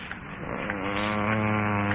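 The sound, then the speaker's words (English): A man groans in the next room, a long, low, steady moaning tone that holds without a break for the whole moment. “Did you groan just then? No, Master. Then it must have come from the next room.”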